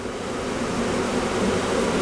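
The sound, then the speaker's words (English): Honeybees buzzing densely on a truck in an almond orchard in Firebaugh, California, after three days confined under nets. A thick, steady drone holds for the whole clip with no voices. “For 3 days, these bees have not been able to fly. So when the nets come off, they create this huge black cloud.”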